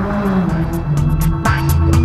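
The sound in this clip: A motorcycle engine drones loudly and continuously, its low, harmonic tone shifting in pitch partway through as it revs.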